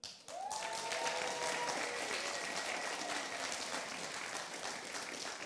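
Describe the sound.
An audience applauding and making noise to support a person coming up to speak, a dense, sustained burst of clapping that starts suddenly and keeps going at an even level to the end.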